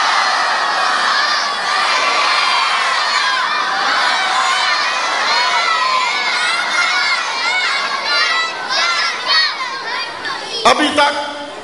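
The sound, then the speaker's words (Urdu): A large crowd recites salawat aloud in unison, a loud, dense and sustained wall of massed voices that holds steady throughout, with a sharp brief knock near the end. “ایک بلند آواز سے صلوات پڑھیے محمد والے محمد کا.”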